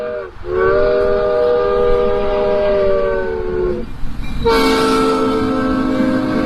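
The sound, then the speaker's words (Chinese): The horn of a small two-car tourist train on a track circling a building sounds in two long, loud, steady blasts, the first sustained for several seconds and the second brighter. “建筑四周有铁路环绕，铁路上的爱丽丝列车只有2节小车厢，可爱的爱丽丝列车将会把游客带到爱丽丝仙境。”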